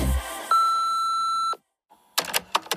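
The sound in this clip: An answering machine beep: one steady electronic tone with a fixed pitch that lasts about a second, followed by a short silence and then a few faint clicks and noises.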